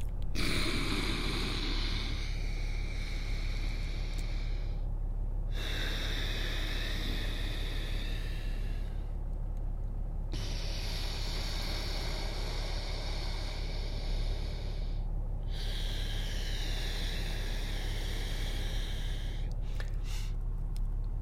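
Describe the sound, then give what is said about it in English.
Someone breathes in slowly through a deliberately constricted throat, giving each inhale a soft, hissing, ocean-like rasp. Several long breaths of even length repeat, separated by brief pauses, with no talk. “you are contracting that area and creating drag on the inhale. So here's an example.”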